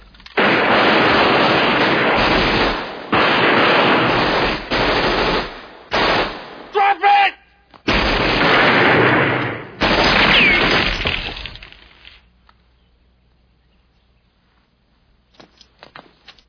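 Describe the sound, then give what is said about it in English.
Loud, sustained automatic gunfire comes in several long, dense bursts split by brief gaps. The firing then dies away, leaving a few faint scattered pops near the end. “Good shot”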